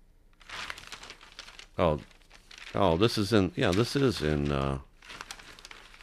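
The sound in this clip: Newspaper pages, a Times Herald laid over a Sunday Times, rustle and crinkle as they are handled: a stretch of papery crinkling comes first, then a voice talks while faint rustling continues underneath.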